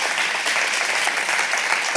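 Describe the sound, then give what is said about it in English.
A church audience claps to welcome a guest called up front, producing a dense, steady burst of applause that stays even and loud for two seconds. “Give him a big hand.”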